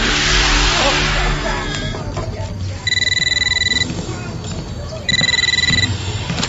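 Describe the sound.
A telephone ringing in two electronic trilling bursts, each lasting about a second, separated by a pause and sounding over a steady background rumble.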